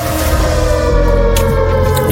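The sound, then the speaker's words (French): A siren sounds as disaster ambience for a segment about Chernobyl. The loud, steady tone sits over a dense, rumbling wash of noise with no voices. “Oh, on est dans l'ambiance de sirène.”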